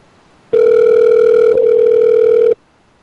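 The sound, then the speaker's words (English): A telephone line rings while a caller waits for an answer: one steady, buzzing ringback tone lasting about two seconds, loud and alone, with silence on either side. “Answer the phone”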